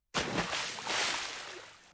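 A splash of water in summer: one sudden burst followed by sloshing that slowly fades.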